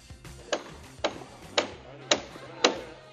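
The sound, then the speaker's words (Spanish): Hammer blows from construction work in the centre of San Lorenzo de El Escorial: sharp, loud knocks repeat at a steady pace about every half second over low background noise. “sonido de obra, como puedes escuchar, sonido de radial, sonido de martillo”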